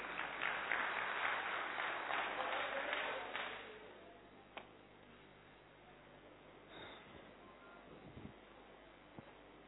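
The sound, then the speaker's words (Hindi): Audience applause at Gyan Sarovar welcoming a volunteer to the stage: loud, dense clapping for the first few seconds that fades away, leaving low background noise with a few isolated knocks. “कोई भी sports person आइए please, कोई भी आइए sir, sir के लिए ताली बजाइए।”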